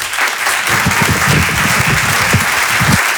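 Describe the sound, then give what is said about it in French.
Audience applause at a comedy club: dense, steady clapping from a large crowd, loud and continuous throughout with no voices standing out. “pouvez l'applaudir très très fort, Flora Amara sur Rire et Chanson. Bravo Flora.”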